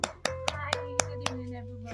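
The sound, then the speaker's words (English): Six sharp, evenly spaced hand claps ring out as a guest is introduced at an evening gathering. They sit over a steady tonal background. “Please, let's clap.”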